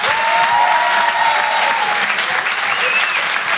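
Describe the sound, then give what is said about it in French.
Applause from a comedy club audience, a steady, loud wash of clapping that carries evenly through the whole clip without pauses or talk. “Merci beaucoup, faites du bruit pour Gimpo.”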